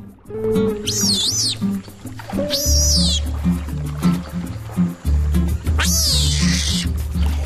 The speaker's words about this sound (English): After squeaking at the camera, he swims off to Carolina, playfully riding on her back and biting her leg.